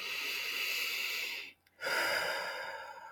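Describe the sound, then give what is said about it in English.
A slow, deep breath taken during a guided relaxation: a long airy inhale of about a second and a half, a brief near-silent pause, then an equally long, soft exhale, with no talking. “Take a deep breath.”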